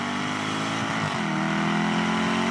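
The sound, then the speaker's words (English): Jaguar F-Type SVR sports car with a V8 engine, a loud continuous roar with a rich low rumble whose tone shifts partway through, with no talking. “Here's the Jaguar F-Type SVR. It's a V8.”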